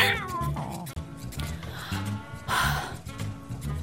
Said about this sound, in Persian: خب بریم ببینیم میتونیم این گربه کوچولو رو رامش کنیم یا نه.